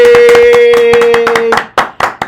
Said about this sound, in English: So please put your hands together and welcome Miss Megan Finley.